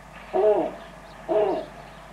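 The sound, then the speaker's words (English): Snowy owl hooting on the Cape and Islands during an unusual irruption of the species: two separate, fairly low, hollow hoots about a second apart, each lasting under half a second, over a quiet background with no voices. “Currently, the Cape and Islands are experiencing an eruption, that's an eruption with an I, of snowy owls, the likes of which we have not seen before.”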